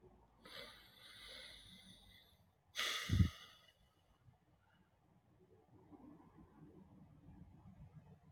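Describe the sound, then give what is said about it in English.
Slow, quiet breathing during a short meditation: a soft, drawn-out airy breath, then a brief, stronger exhale with a low puff, followed by faint steady background noise. “So let's get ourselves comfortable. Let's get a breath.”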